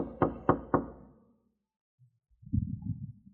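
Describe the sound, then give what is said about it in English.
Three sharp knocks on a door land in a quick, even rhythm. A pause follows, then a low, muffled rumbling sound. “If you saw me walking up and then the knock came,”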